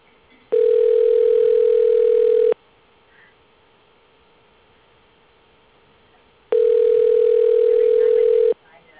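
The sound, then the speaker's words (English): Telephone tone while dialing out: two long, steady, loud buzzing tones, each about two seconds, separated by a few seconds of near silence with faint background noise. “I'm dialing out.”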